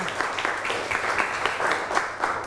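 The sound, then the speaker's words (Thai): Students in a classroom lesson applaud a correct answer with a fairly regular series of sharp claps. The clapping is moderately loud, and a faint voice can be heard underneath. “ถูกต้องปรบมือค่ะ”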